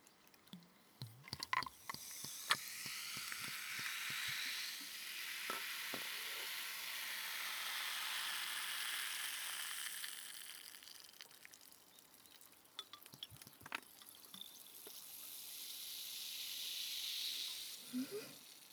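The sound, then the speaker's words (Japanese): Ramune soda poured into a glass fizzes with a soft, steady hiss that swells and fades. A few small clicks come near the start, and the whole sound stays quiet. “ラムネのいい香り、これをコップに注いで、”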